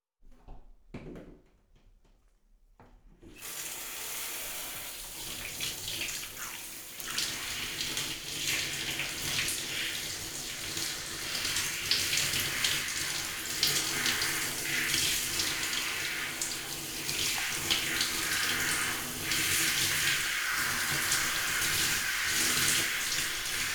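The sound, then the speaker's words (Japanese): Running water rinsing someone off, likely from a tap or shower. After a brief quiet start it rushes in as a steady, hissing stream that grows slightly fuller and continues without pause. “流しちゃうから目つむっててね。”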